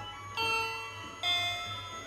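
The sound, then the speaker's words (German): A doorbell rings in a home, two bright chime strikes about a second apart, each ringing on with clear sustained tones that slowly fade. “hier hat's geklingelt”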